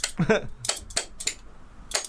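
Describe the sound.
Spoons played as a percussion instrument give a few sharp, bright metallic clacks in an uneven rhythm, separated by short gaps, with a brief voice sounding near the start.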